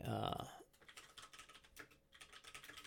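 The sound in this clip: Keyboard typing and clicking on a computer: a quiet, rapid run of many light key taps and clicks in an uneven rhythm after a brief louder sound at the start.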